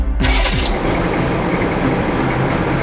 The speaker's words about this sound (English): A massive eight-wheeled Striker armored vehicle rolled into view, headlights blinding.